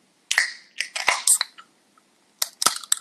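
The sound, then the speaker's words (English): Someone cracks open a can of hard seltzer, producing sharp metallic clicks and short fizzing hisses. The bursts come in two clusters with a quiet pause between them, and there is no talk. “I'm going to go ahead and crack my can open, and we can say cheers and take our first sip.”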